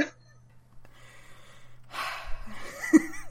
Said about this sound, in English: Gotta take a breath. Pauses to conceive a thought. Gonna take a deep breath.